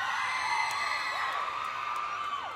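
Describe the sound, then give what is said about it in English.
Girls in a crowd at a live show scream together in a sustained, high-pitched, overlapping wash with a few sliding pitches, fairly faint and steady throughout. “some girls screaming.”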